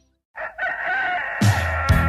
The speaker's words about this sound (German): Ich stehe morgens nicht mit dem Hahn auf, sondern mit dem Schwarzwaldradio.